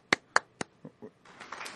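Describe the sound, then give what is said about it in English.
A small round of applause after a prize is awarded: a few sharp, isolated hand claps, then a couple of softer taps before brief scattered clapping from a few people. “We don't have the round of applause. Round of applause? Do we have to? We got to do it.”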